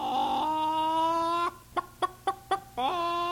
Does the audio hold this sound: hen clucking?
yes